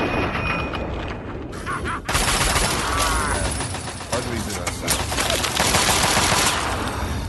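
Gunfire from a gun in a video game: rapid, dense shots and heavy thuds fill the whole stretch, loud and almost continuous with only brief dips.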